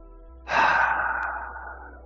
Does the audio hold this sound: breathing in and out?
yes